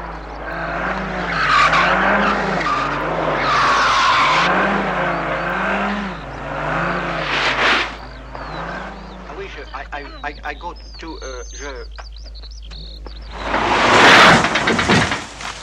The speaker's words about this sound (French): le ballet de voitures qui apparaît à l'écran lorsqu'on assiste à cet accident gigantesque qui s'étale sur plusieurs minutes